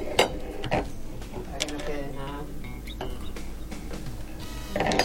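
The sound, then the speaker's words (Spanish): Metal clinks and scrapes as a cocktail is double strained from an ice-cold shaker through a butterfly strainer and a fine kitchen strainer into a cocktail glass; a few sharp clanks stand out over steady rattling, with some talk alongside. “Y ahora vamos a usar un doble colado.”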